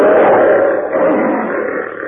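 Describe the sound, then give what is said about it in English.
A lion's roar as a sound effect in a car battery advertisement: one loud, sustained, low growling roar lasting about two seconds, holding steady before easing off slightly at the end, with no talk. “As the lion says...”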